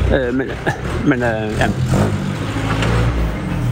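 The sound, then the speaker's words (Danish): A vintage car drives past, its low engine rumble swelling steadily beneath a man's talk at the start, then continuing on its own. “Jamen, det er lige en veteranbil, der kører forbi her nu.”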